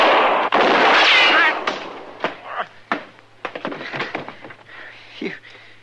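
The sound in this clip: Gunshots in a shootout: a loud roaring blast opens the sequence, and several sharp cracking shots follow at irregular intervals, with voices briefly heard toward the end.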